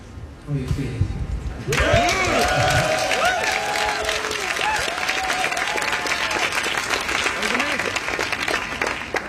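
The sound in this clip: Loud, sustained applause and cheering from a concert audience after a performance of a Schubert song, with whoops and whistles rising over dense clapping that swells after a quieter start and then holds steady.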